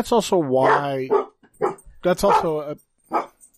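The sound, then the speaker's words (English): A dog barks and yelps in a few loud bursts, some drawn out into whining tones, with short silent gaps between them. “the dog stopped fucking barking loud enough to pick up on the mics”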